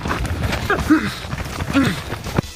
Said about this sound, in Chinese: 就是带着防毒面具从这个100米射击地线跑到这个50米处。 防毒面具戴上，快！